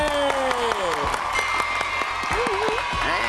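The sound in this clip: Audience applause greets a team receiving a certificate at an award presentation. Steady, moderate clapping continues throughout while a voice speaks over it.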